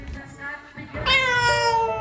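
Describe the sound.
A domestic cat gives a loud, drawn-out meow, a bright harmonic cry that holds for about a second in the second half, with brief talk before it.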